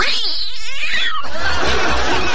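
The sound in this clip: A man's voice imitates a demonic cat at an animal-imitation contest: a warbling, wavering yowl that bends up and down in pitch, then breaks into a harsh, noisy hiss-like stretch that fills the second half.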